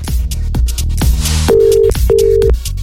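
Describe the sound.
A phone ringing tone as a Greek radio morning show calls a listener: two steady, even tone pulses sounding over loud, beat-driven music.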